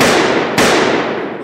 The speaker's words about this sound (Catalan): La noia treu una pistola i els dispara.